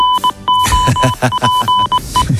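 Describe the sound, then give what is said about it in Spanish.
Goal alert jingle from a radio sports show, flagging a goal during play: a rapid pattern of bright electronic beeps over punchy low thumps, loud and rhythmic. “Suena el aviso de gol en tiempo de juego.”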